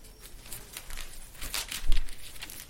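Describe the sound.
Pages of a Bible being turned, a soft paper rustle and crinkle with a few faint swishes, quiet and on its own.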